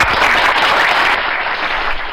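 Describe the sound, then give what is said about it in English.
An applause sound effect: a short, loud burst of dense crowd clapping, steady and continuous throughout. “we had a whole pack of applause right here.”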